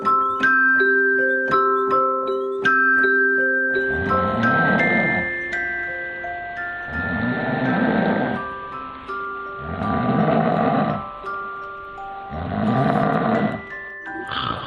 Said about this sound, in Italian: E quindi comincio a russare. Vi fa tanto schifo? Vi fa senso? Pensate che un uomo che russa è un uomo che debba vergognarsi, debba sentirsi inferiore rispetto a una donna? Ebbene, ascoltate io che russo.